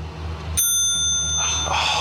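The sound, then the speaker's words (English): A bright, sharp bicycle bell is struck and rings on with a clear, sustained metallic tone over a steady low hum. “Before you go, give us a bell ring.”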